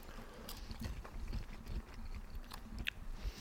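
Biting and chewing a Thüringer sausage seasoned with caraway: a steady run of moist, crunchy mouth sounds and soft bites, with no speech.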